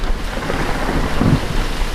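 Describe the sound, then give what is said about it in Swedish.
Loud, sustained rumbling thunder from a lightning strike on a transformer station. The deep roll holds steady throughout without a sharp crack. “En blixt slog ner i transformatorstationen.”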